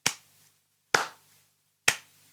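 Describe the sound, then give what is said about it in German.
Three sharp hand claps mark the syllables of a word in a children's word game. The claps are evenly spaced and crisp, each decaying quickly into silence, with no talk. “Eine etwas schwierigere Aufgabe wäre, wenn ihr nur die Silben klatscht, zum Beispiel dreimal, und das Kind sucht ein Wort mit drei Silben”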